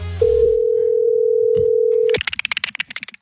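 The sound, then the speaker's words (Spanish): A steady, even telephone tone sounds while a call is being placed and holds for about two seconds. It then cuts off into a quick run of short, sharp, high clicks. “estamos llamando a Rosa Melo a ver si lo quiere recibir en su casa”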